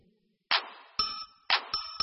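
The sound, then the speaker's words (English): A bell rings out in five bright metallic clangs, each one fading briefly before the next. The final strikes come closer together. The bell sounds alone, with no voices. “L, L, L. L, L, L. Bell, bell, bell. Bell, bell, bell. The big bell fell. The big bell fell.”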